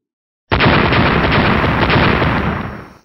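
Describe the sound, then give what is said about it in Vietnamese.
A sudden roaring blast as explosions shatter an ice wall: one loud, broad, sustained rumble that starts abruptly after a half-second of silence and holds steady before fading at the end. “Bốn tiếng nổ liên tiếp vang lên”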